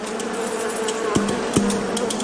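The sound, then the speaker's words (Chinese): Bees buzz as they fly out of a hive in a lotus field in the morning. It is a dense, steady drone with a few brief dips in pitch, heard alone without voices. “当晨光照进莲田，蜜蜂从巢中振翅而出，响应着每一朵莲花的呼唤。”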